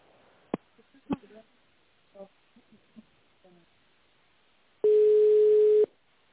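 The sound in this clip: A telephone line tone sounds while a call is being connected: a single steady tone of about one second, preceded by a few sharp clicks and faint murmurs on the line.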